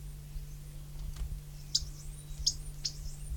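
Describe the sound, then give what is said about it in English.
Alarm notes from two birds: a few short, sharp, high chips with gaps between them. They are faint against a low, steady hum. “Alarm notes, apparently. Two birds present.”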